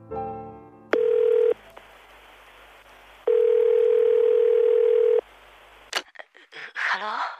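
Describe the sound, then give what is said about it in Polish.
Telephone line tone during a call: two steady, mid-pitched electronic tones, the first short and the second about two seconds long, separated by silence, then a click followed by a voice speaking. “Zaraz po powrocie zadzwoniłem do niej.”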